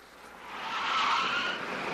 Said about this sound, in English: As a black car with dark windows speeds by